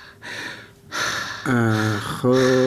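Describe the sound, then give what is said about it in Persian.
Deep breathing from a patient during a doctor's medical examination: a few long, heavy breaths, the first ones airy and breathy, the later ones turning voiced into a low, groan-like tone. “نفسای عمیق عمیق بکش. خب برو نفس و یک کم دیگه عمیق‌تر.”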